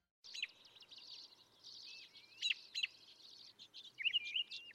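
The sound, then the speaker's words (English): A robin sings in spring: short, high chirps and warbled phrases come in a few bursts, alone and fairly faint, with the sharpest notes near the end. “The sound you're hearing is spring beginning, the song of the robin.”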